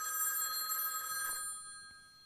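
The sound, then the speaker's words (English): A telephone bell rings steadily for about a second and a half, then fades and stops, with no talking over it. “the phone went off”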